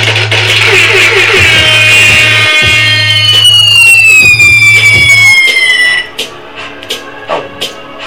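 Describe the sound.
DJ bomb-drop effect on a hip hop show: whistling tones slide downward over a steady beat, then cut off abruptly, leaving a few softer, scattered sounds.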